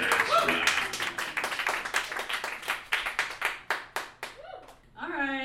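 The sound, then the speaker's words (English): Audience applause at a live show: a loud burst of dense hand clapping with sharp individual claps that thins toward the end, where a voice briefly starts speaking. “put your hands together and make some noise”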